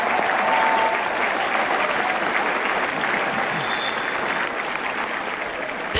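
Loud, sustained applause from a concert audience at the Edinburgh Festival, given as a standing ovation after an orchestral performance. The clapping holds dense and even throughout.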